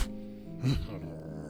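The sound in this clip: Low, rough growling from a dog-like pet behind a bedroom door, a steady rumble throughout that swells into a louder rasping surge midway before settling back.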